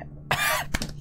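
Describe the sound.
Coughing from someone choking as something went down the wrong pipe: a strained, raspy burst followed by a few shorter, sharper coughs, loud and without talk.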